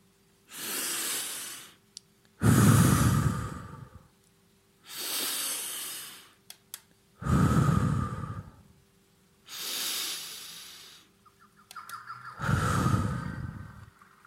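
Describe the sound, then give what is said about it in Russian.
Three slow, deliberate breaths in a guided meditation, each a hissing inhale through the nose followed by a louder, deeper whooshing exhale through the mouth, in an even rhythm with short pauses between. No talking. “Вдохнуть 3 раза шумом. Вдыхаем через нос, выдыхаем через рот.”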